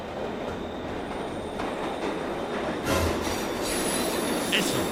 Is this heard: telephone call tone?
no